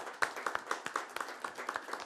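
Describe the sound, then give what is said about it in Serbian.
Audience applause at a tavern show with an orchestra: faint, fairly steady clapping with many quick, even claps continuing throughout. “Još jedan veliki, veliki aplauz.”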